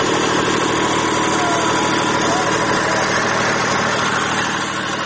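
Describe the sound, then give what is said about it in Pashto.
A large electricity generator runs in front of the electricity department building in Lashkar Gah, producing a dense, steady engine drone that holds an even loudness throughout. “د برېښنا د ریاست مخ ته یو لوی جنراتور د هغو کسانو غږ ورک کړی دی چې دلته پلاستیک راچوي کې واړه توکي خرڅوي.”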